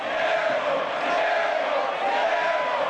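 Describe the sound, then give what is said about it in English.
Columbus Crew supporters, some 3,000 clad in black and gold, chant in full voice in the stadium during a soccer match. Massed voices form a dense, loud, continuous roar with no break. “What you're hearing is one of the sounds that is distinctive to Columbus soccer culture. 3,000 black and gold clad supporters in full voice for 90 minutes.”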